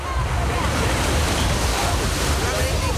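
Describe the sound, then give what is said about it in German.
Waves and wind at the Strandbad beach in Losheim make an unbroken, even rush of surf and wind noise that stays at a constant level throughout. “So klingt's heute im Strandbad in Losheim.”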